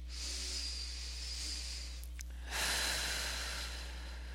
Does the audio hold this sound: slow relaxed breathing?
yes